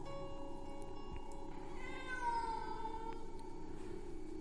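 A cat at a wooden door at night lets out one long, drawn-out yowl, faint and eerie, over a steady low hum.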